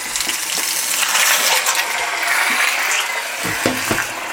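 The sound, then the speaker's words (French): Cold water poured into a cooking pot over browned ingredients while making a traditional mountain dish: a steady, fairly loud splashing gush throughout, with a few brief clinks near the end. “on met un peu d'eau et on couvre. un peu d'eau froide”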